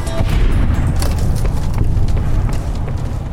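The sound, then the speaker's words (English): An explosion blows up an enemy leader in the video game Fallout: New Vegas. It is a loud, sustained, low rumbling boom with crackling bursts layered through it. “I blew up their leader.”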